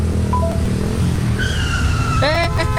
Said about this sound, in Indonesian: Untung lu sempet ngerem. Kalau telat dikit aja, bisa nabrak tuh tadi kita.